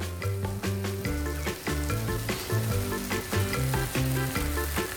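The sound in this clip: Food sizzles and fries in a pan, a steady crackling hiss that carries on throughout at moderate volume.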